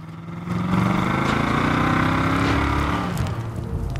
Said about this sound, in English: slams her foot down and drives the car out of the burning compound.